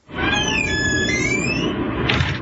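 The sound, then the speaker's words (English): High-pitched squealing from a delighted young boy, thin, wavering tones held for about two seconds over a loud, noisy rumble. “There's some high-pitched squealing at one point because he was just enjoying this also very much.”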